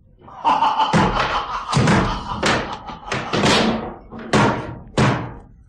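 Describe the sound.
Knocking on a wooden door in a radio drama, where an intruder has just been chopping at it. A series of loud, heavy, irregular blows, spread across several seconds.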